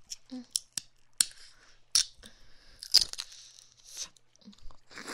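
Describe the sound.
Close mouth sounds of eating jelly: many sharp, wet clicks, smacks and sticky little crunches in an irregular rhythm, with brief soft pauses between bursts.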